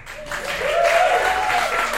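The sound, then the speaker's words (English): Audience giving a round of applause at a live show, a full burst of clapping that swells in the first half-second and then holds at a loud, steady level. “So if you guys want to just give a random round of applause, so it looks like a show”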